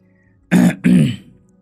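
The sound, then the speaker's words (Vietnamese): A man clears his throat in two short, loud, rasping bursts; the second is slightly longer and trails off. No talking is heard. “con lớn lúc này mới hắng giọng lên tiếng”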